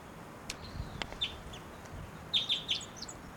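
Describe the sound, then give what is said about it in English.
Flight calls of a female wild bird: a single high chirp, then a quick series of three sharp, high notes, all faint over a steady background hiss. “That was a flight call there by that bird. Maybe, oh, this is the female actually.”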